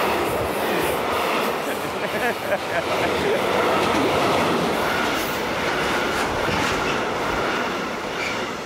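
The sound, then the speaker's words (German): A passing train rumbles and clatters through Bacharach, where heavy rail traffic runs through the town. The loud, steady roar holds without a break for the whole clip. “Wenn jetzt jeder in Bacharach schreit, die Bahn ist zu laut, dann kommt uns niemand mehr.”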